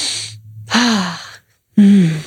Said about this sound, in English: Should we take a breath?